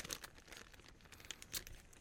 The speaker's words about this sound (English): I should have brought scissors in here. Right, okay. I think I'm in.